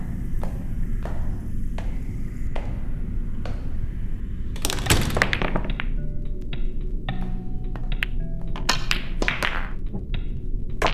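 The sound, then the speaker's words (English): Pool balls click as a cue ball is struck into a pocket: a few light taps, then a sharp rattling clatter midway and another burst later, all over a steady low rumble. “you're making me rich with the amount of time you've hit the cue ball into the pocket.”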